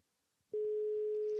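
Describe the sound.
A telephone line tone while a call is being placed on a line with very poor reception: near silence, then a single steady, unbroken mid-pitched tone that holds to the end, with faint low crackle beneath it.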